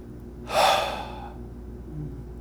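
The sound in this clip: A single audible breath drawn in through the mouth: a short, breathy intake that rises quickly and fades, standing out against a quiet background.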